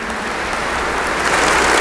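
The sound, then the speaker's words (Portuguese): Congregation applauding during a Catholic Mass right after the Gospel reading, a steady, dense wash of clapping with no talk that swells slightly louder toward the end. “Uma salva de palmas a Jesus.”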